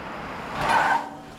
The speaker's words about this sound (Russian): Подъезжает на своем джипе Росс.